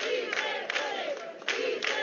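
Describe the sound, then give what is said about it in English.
Applause and cheers from a crowd as the last patients leave Madrid's makeshift field hospital in a convention center; a loud, steady roar of voices with surges of noise throughout. “There was applause and cheers on Friday as the final patients left Madrid's makeshift field hospital in the Spanish capital's convention center.”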